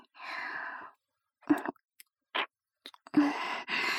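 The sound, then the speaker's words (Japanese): Licking sweat off skin, heard as several short, wet mouth and smacking bursts with quiet gaps between them, plus one longer soft breathy stretch. “舐めてあげるね。”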